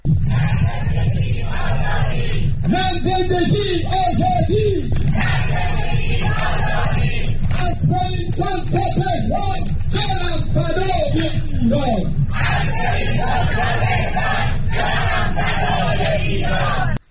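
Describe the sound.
A crowd of Iranians in Wellington, New Zealand, forms a human chain in rainy weather, shouting slogans in loud, rhythmic, continuous chants.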